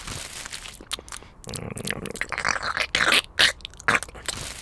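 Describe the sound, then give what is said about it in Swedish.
Metal screws are crunched and chewed, giving irregular gritty crunches and scraping. Many bursts come in uneven rhythm and grow louder and sharper toward the end. “Så Oskar fortsätter med den konstiga maten. När andra barn går till gottkiosken går Oskar till järnaffären. Där köper han blandade skruvar som man får i en strut.”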